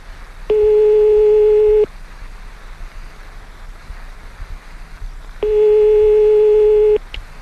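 Telephone ringing tone on the line while calling someone: two long, steady, mid-pitched tones about a second and a half each, separated by a long gap of low hiss.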